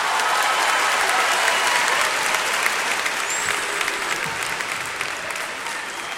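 Audience applause welcomes a performer onto the stage at a show. The clapping is dense and steady, continuous at an even loudness throughout.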